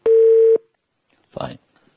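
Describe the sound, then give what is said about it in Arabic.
A telephone tone after a call disconnects: one loud, flat, mid-pitched beep lasting about half a second, then silence before a brief burst of a voice. “طيب انقطع الاتصال تقريبا”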